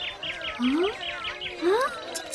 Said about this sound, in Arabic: ياه كم أنت جميل أيها العصفور.